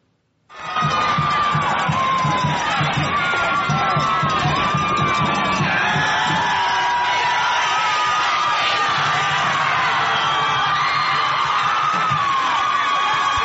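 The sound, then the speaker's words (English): Owensboro high school football fans cheer at a packed game with about 7,500 in attendance. A loud, sustained crowd roar of shouts and whoops begins abruptly and holds steady to the end. “Here's just a few sounds from the Owensboro fans.”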